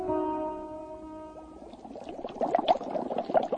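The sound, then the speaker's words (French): Water boiling in a pot, with an irregular bubbling and rolling texture that grows louder and busier in the second half, alone with no voices. “Tu vois l'eau qui bout là ? C'est de l'eau bouillante.”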